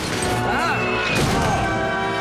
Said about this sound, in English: As the stage collapses, a food trolley launches towards Shrek.